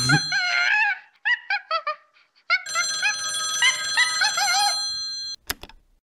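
A telephone rings just before it is answered, a loud, bright melodic ringtone repeating in short tonal bursts with brief gaps between phrases.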